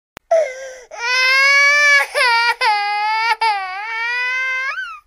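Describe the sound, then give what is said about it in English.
A new baby girl cries: several loud, high wailing bursts with short gasping breaks between them. The pitch wavers and dips within each cry. “I made my funniest face ever, and she cried even louder.”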